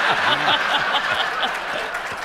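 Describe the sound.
Audience applause rolls along with chuckling and laughing voices over it, easing slightly in loudness toward the end.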